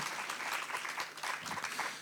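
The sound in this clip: Faint audience applause at an international cultural festival in a dance theatre, greeting a group of applicants: soft, dense clapping with a light patter that continues evenly for about two seconds.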